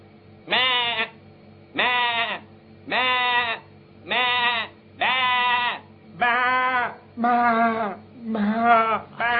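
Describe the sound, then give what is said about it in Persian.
Live sheep bleat in a steady, regular series of loud, wavering calls, each spaced about a second apart. The final bleats come lower and rougher over a faint background hum. “گوسفند زنده ایه”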